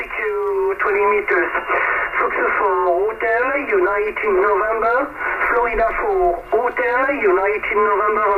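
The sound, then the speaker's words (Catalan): Old amateur radio transmission: a voice speaks through a narrow, tinny, band-limited channel, with a constant hiss of noise under the speech throughout. “A veure aquest soroll, hi ha un soroll, escolta.”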